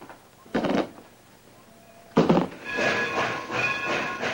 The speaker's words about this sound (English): waits as a smoking freight engine passes by